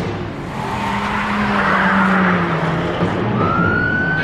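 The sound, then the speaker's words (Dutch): A grey car speeding away at high speed: a loud, sustained engine roar with a droning tone, joined near the end by a higher whine that climbs steadily. “En op een aantal meter daarachter vertrekt een grijs voertuig tegen hoge snelheid.”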